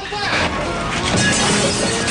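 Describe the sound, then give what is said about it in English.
Guards smash the windows of a death cell, and the glass breaks in a dense, continuous burst of loud crashing and shattering noise that fills the whole moment without a break. “They smash the death cell's windows.”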